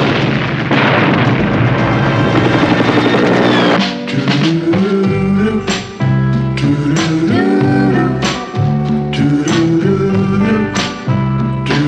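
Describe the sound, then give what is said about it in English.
A rocket explosion in a Vietnam War scene bursts out as a broad, loud roaring blast, followed by a series of sharp, booming hits that recur at intervals to the end. “Watch out! Rocket!”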